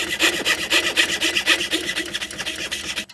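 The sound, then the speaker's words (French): Rapid, rhythmic rasping from a small-bladed carving machine cutting into ivory and mother-of-pearl: many steady, bright scraping strokes in an even, saw-like pulse at a fairly loud, constant level, with no voices, stopping abruptly near the end. “Il y a une machine, en fait, juste ici, avec une toute petite lame qu'on va venir actionner, en fait.”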